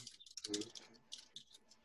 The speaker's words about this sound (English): This is where you can see how good my typing is.